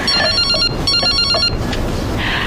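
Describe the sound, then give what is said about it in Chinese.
A telephone rings in two loud, high-pitched, trilling bursts separated by a short pause, followed by quieter background. “接个电话。”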